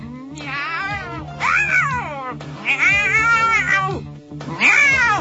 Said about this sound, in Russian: Послышалось отвратительное кошачье мяуканье